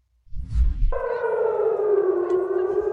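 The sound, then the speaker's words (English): Civil defense sirens sound in Tel Aviv. A loud, steady wailing tone sets in after a brief low rumble and holds level, continuous and alone. “You can hear the sirens going off.”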